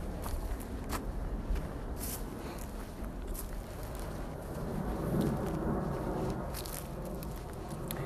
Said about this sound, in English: And I'm walking underneath one of the biggest trees around these parts